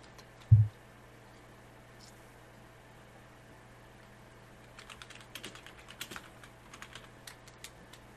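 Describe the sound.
Typing on a computer keyboard while writing a message: many quick, irregular, light key clicks in a steady patter, preceded by one low thump, against faint background hiss.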